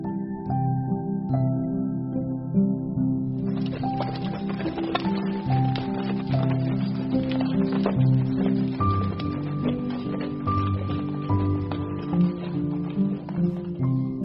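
A horse pulling a cart clip-clops with steady, even hoofbeats, running throughout over a sustained tonal background.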